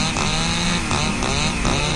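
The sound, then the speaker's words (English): A handheld chainsaw motor runs loudly and steadily, a continuous buzzing engine drone with a strong low hum and slight surges in level, heard alone. “you can hold one in your fist and you know, it's got a chainsaw motor. You can do chainsaw-like cutting”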